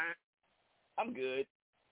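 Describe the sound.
A voice imitating a fart: a short, buzzy, low vocal blurt of about half a second, after a brief voiced sound.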